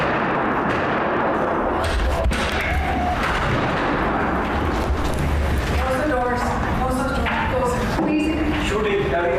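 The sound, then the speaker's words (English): Gunfire from footage of an attacker shooting up a building: sharp reports cut through a dense, continuous roar of noise, and voices are present throughout. “And here's footage of him shooting up the place.”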